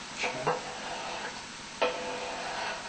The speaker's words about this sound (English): Get our tomato in here, mm-hmm. While that's cooking.